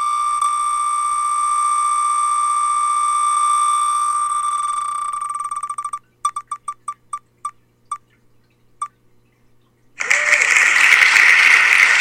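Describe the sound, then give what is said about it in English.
A prize wheel is spun during a jersey giveaway on a sports talk show: a sustained electronic tone gives way to a run of sharp ticks that slow and stop, then a loud burst of applause breaks in. “All right, here we go. Spin the wheel.”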